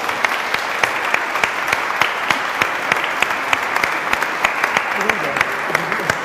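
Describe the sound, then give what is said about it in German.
A church audience applauds at the close of a service right after the blessing, with continuous clapping and sharp individual claps standing out at a fairly regular beat, and a voice coming in near the end. “Und Sie dürfen einmal klatschen hier für unsere”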